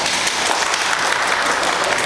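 Audience clapping fills the whole stretch, a dense, steady wash of many hands answering a show host's question about whether neither of his eyes can see.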